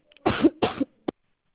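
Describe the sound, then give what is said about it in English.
Coughing from a person with a sore throat: two short, rough coughs followed by a much briefer third burst, each clear and alone with silence around them. “I have a sore throat, and I keep coughing.”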